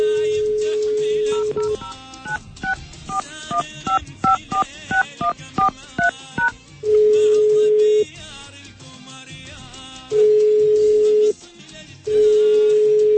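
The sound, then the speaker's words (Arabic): Telephone dialing while calling a listener. A steady tone is followed by a quick run of many short touch-tone beeps, and then three long, loud ringing tones separated by quieter pauses. “رح نحاول الآن الاتصال به.”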